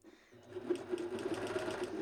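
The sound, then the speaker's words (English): Serger sewing elastic onto kid leggings: after a brief quiet moment the machine starts up into a fast, even whirring hum with a rapid pulse that holds to the end. “So I'm around the edge, and I'm not going to tuck that serger tail back through or anything like that because it's going to get folded over.”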